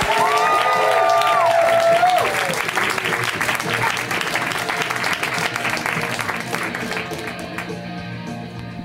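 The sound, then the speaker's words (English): Comedy show audience applause: loud, sustained clapping with cheering and a whoop near the start, gradually thinning toward the end. “Hey, why don't we keep that clapping going, actually?”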